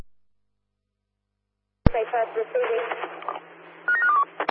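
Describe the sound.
Telephone dialing tones: a quick run of several keypad beeps near the end, after radio-style voices over a steady hum in a security control setting.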